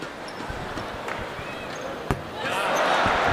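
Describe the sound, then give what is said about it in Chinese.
A basketball thrown with too little spin, probably on a free throw in a pro game, strikes the back of the rim and bounces out. The sharp single clang is heard under commentary talk and steady crowd noise that swells afterward. “这球不够转，所以打到篮筐的后沿上以后弹出来。”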